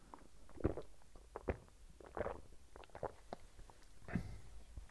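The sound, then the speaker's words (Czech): Someone takes a quick drink: a few soft, low gulps and swallows spaced unevenly over quiet background. “Já se jenom rychle napiju.”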